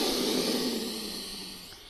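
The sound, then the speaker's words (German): A slow inhalation through the left nostril during an alternate-nostril breathing exercise: a steady, airy hiss that holds for about two seconds and gradually fades. “Pause machen. Links einatmen.”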